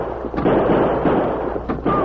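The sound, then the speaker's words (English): Gunfire in a Western shootout, with a couple of muffled, booming shots over a continuous broad rumble of noise. “Oh, he's too far back. That's the banker's uncle. He's opened fire.”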